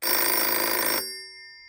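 A telephone bell rings for an incoming call, giving one bright, loud ring lasting about a second that then cuts off, leaving faint tones that fade away.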